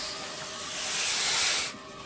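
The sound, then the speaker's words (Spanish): A black cobra hisses in one long, continuous breathy hiss that swells gradually in loudness and then cuts off abruptly, leaving a faint steady background. “Coge una pala con la vista fija en la serpiente. Una cobra negra.”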